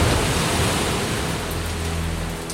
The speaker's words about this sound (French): De grosses gouttes de pluie tambourinent sur le toit de l'arche. Les rivières débordent, la mer envahit la terre.